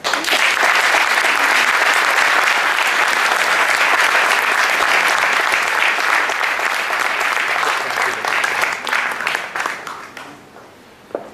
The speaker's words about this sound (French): Je vous demande de faire une ovation à Arzouel.